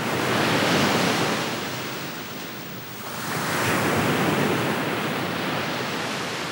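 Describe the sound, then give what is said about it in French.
Sea waves break on the shore in a loud, rushing roar of surf that swells, eases briefly in the middle, then builds again, with no voices. “Le rivage vibrant sous le coup de vagues répondait à la haute mer retentissante.”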